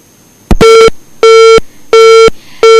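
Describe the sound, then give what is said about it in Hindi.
Busy signal after a phone call disconnects: a brief click, then loud, evenly spaced, identical mid-pitched beeps repeating alone with no voices. “शायद किसी कारण जिहड़ा phone है डिसकनैक्ट हो गया है”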